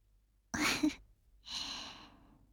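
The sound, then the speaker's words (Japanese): Two drawn-out, breathy yawns, each a long airy exhale. The second is softer and trails off longer. “あなたにもあくびが映ってしまったわね。”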